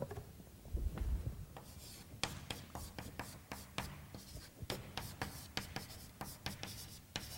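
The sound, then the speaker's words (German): Chalk scratches and taps on a blackboard as a lecturer writes, in many quick, uneven strokes. The strokes are quiet and dry, with brief scraping sounds between sharper clicks. “Ich schreibe das an die Tafel.”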